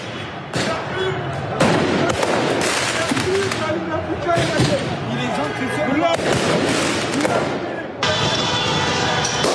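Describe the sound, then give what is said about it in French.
Firework mortars fired at police during street unrest in Paris: several loud, crackling bursts break through dense, continuous crowd noise. “Ici, des policiers sont ciblés par des tirs de mortier.”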